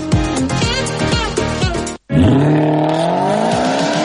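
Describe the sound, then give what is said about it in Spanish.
A flashy car engine revs loudly with rising and falling whines and a continuous roar. A brief gap of silence cuts in near the middle before the engine noise returns. “¡Vaya cochazo! ¿Es nuevo?”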